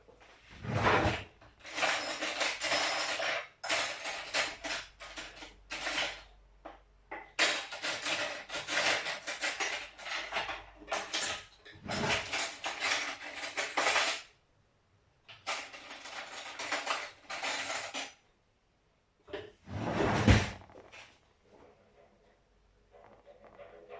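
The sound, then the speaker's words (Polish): Cutlery clattering as someone rummages for a teaspoon and takes one while making ground Jacobs coffee: many irregular bursts of metallic rattling and clinking, broken by short quiet gaps. “Bierzemy łyżeczkę. Tylko gdzie ta łyżeczka jest teraz? Nie ma? No to trzeba wziąć nową.”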